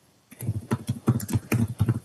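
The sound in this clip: Quick, irregular typing on a computer keyboard: a short run of soft, dull key clicks and taps with a slightly uneven rhythm, heard alone without talk.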